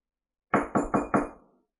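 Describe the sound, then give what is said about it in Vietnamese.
Knocking on a room door: four sharp, evenly spaced knocks in quick succession, fairly loud and alone, with the last one fading out. “Một hồi tiếng gõ cửa vang lên, Thạch Mục mở cửa phòng, hóa ra Điện Hỏa Vũ”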